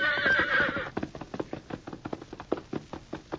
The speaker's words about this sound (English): Eagerly, the thoroughbred trotted forward, covering the wide expanse of rangeland with long,